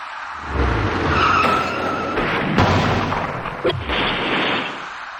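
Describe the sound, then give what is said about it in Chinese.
A box van rear-ends a white car in traffic: a continuous loud roar of road noise or skidding tires, broken by a couple of sharp impact bangs in the second half. “司机的鲁莽急躁导致厢式货车猛然追撞上前方的白色小客”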